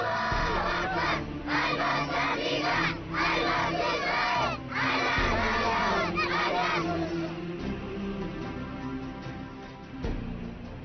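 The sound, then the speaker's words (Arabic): Children in Yemen chant together in a loud, rhythmic roar of massed young voices. Phrases come in repeated surges, easing slightly in volume toward the end. “إذا كان هذا هو صوت أطفال اليمن، فما بالك برجال الرجال في الجبهات.”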